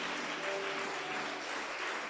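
Congregation applauding during a worship service, a faint, continuous wash of clapping with no distinct individual claps standing out.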